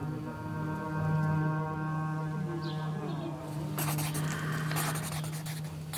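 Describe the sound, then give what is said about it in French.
A letter is written by hand, with scratchy pen strokes on paper over a sustained low musical drone. The scratching grows busier and louder in the second half. “Je dois écrire à mon mari.”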